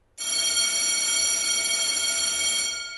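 School bell ringing, a loud continuous electric ring that starts abruptly and holds steady for about three seconds, beginning to fade only at the very end.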